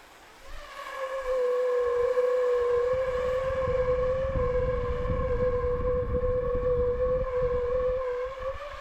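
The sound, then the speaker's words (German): A burner flame pointing upward inside a plastic tube about 50 cm long and 5 cm wide sets up a steady singing tone with clear overtones. The tone rises in after a brief quiet start and holds evenly over a low roaring hiss. “drehe ich meinen Brenner so um, dass die Flamme genau nach oben zeigt und stülpe dann ein Rohr drüber, zum Beispiel ein Kunststoffrohr mit etwa 50 cm Länge und 5 cm Durchmesser.”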